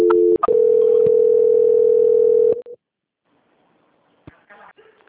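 A loud, steady telephone tone sounds while a call is being transferred. It follows brief opening beeps, holds for about two seconds, then cuts off into near silence with faint scattered sounds.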